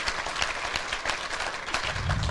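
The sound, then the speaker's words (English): An audience claps hands during a sermon, with many overlapping sharp claps forming dense, steady applause that runs throughout. “Give God a hand clap.”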